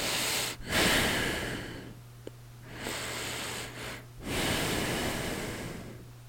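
Two people breathe loudly and heavily into new microphones, with long hissing inhales and exhales separated by brief pauses and a steady low electrical hum beneath.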